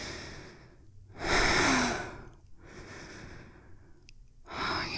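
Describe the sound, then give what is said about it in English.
Heavy, warm panting breaths close against someone's neck, a few breathy exhales with one long, loud breath standing out, softer airy breathing between them, no talking. “that's my warm breath as I pant against your neck.”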